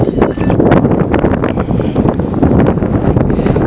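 Strong wind gusts buffet the microphone at a spring-fed trout farm site, a loud, continuous, rumbling roar with uneven surges and no voices.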